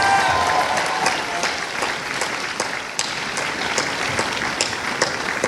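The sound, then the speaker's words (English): Audience applause for a panel guest, a dense wash of many hands with sharper individual claps popping out, easing slightly after the first second and then continuing steadily. “Yeah, come on, give it up to Fraser too.”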